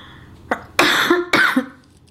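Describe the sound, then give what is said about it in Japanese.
Harsh coughing from a person choking on water they were drinking, heard as a few loud, raspy bursts in quick succession, with no talk over them. “ごめんなさい、なんか水がね、詰まっちゃった。またやっちゃってるね、水飲んでむせててね。”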